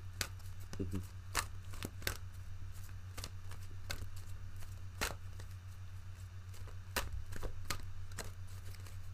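Crisp snaps and flicks of an oracle card deck as a single card is pulled, a quick series of many short, sharp papery clicks spread irregularly over a steady low hum.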